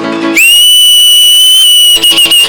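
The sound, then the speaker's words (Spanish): Loud, shrill whistling rises from people at a church gathering. It holds one sustained high note with a quick upward slide at the start, then breaks into a few short bursts. “A ver quién puede chiflar aquí, hermano.”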